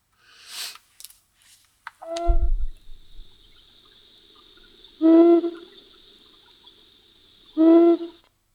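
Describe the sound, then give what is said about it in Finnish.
Two deep, low hoots from an eagle owl's courtship call sound a few seconds apart, each short and booming over a faint steady high whine, after a few brief knocks and rustles. “Ja sitten tämä niin kuin tämmöinen soidin ääni, sehän on sitten tämmöinen matala uu.”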